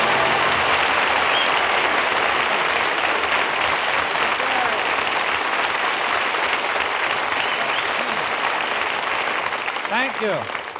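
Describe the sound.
Audience applause after a song, a loud, sustained roar of many hands clapping that stays dense and even for the whole stretch and eases slightly at the very end.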